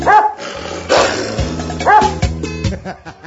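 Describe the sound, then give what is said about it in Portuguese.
Dog barks and yips ring out a few times in sharp bursts, with a steady low backing underneath throughout. “Meu cachorro me sorriu latindo.”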